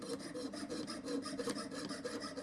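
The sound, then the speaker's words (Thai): A fret saw cuts a workpiece held firmly by hand, giving quick, even rasping strokes in a steady rhythm with no talk. “ให้เอานิ้วจับชิ้นงานให้แน่นหรือแข็งแรงนะครับแล้วก็ฉลุนะครับไม่ต้องบิดใบเลื่อยครับ”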